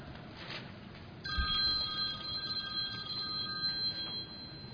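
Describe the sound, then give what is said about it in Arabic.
A telephone rings with an electronic ringtone. Bright, steady tones start a little over a second in and continue for about three seconds before stopping, over a low background hum. “أتى التليفون وأتت رسالة”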